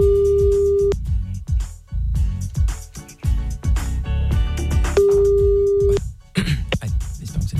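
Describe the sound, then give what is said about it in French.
Ringing tone of an outgoing telephone call: two steady, even tones of about a second each, several seconds apart, over loud, continuous background music. “On appelle Dylan maintenant, bonne chance.”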